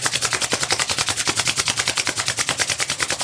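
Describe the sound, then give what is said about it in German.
Hands rubbed together vigorously make a fast, even run of many brisk swishing strokes, loud and rhythmic with no talking. “Da die Nieren auf der Höhe des Solarplexus sind, lade ich dich jetzt mal ein, richtig stark deine Hände zu reiben.”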